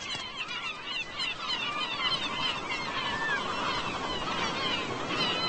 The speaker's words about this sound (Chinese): 填饱了肚子之后，黑北鸥飞回自己的群体。家人正在焦急等待。